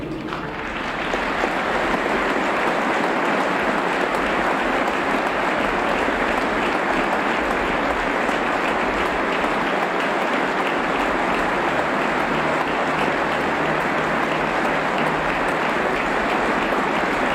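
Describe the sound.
Stadium crowd applauding during a minute of applause tribute at a football match, with players gathered in a circle at the centre of the pitch. The clapping is a dense, loud, continuous wash that holds steady throughout.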